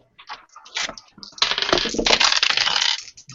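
Dice rolled for a skill check in a tabletop role-playing game: a few light clicks, then a dense, loud clatter of rattling and tumbling that lasts about two seconds before settling into scattered taps.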